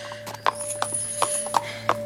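Horse hooves clip-clop as a horse is ridden back toward the stables, several sharp, evenly spaced hoofbeats ringing out over a faint sustained tonal hum.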